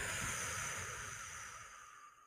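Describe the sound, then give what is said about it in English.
A long exhale during a breathing exercise, a steady airy rush of breath that slowly fades over about two seconds, with no voice. “I take a breath in through my nose only with my mouth closed. Pause at the top and hold for four. Breathe out”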